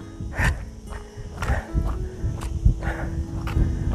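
A person walks outdoors at an even pace, each footstep landing as a soft, crunchy thump in a steady series, moderately loud with no talking.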